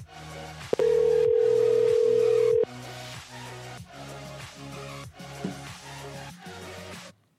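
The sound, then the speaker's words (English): A steady telephone tone while a call is dialed, holding for about two seconds before cutting off, laid over a rhythmic, repeating musical background. “I'm going to call back, see if she answers.”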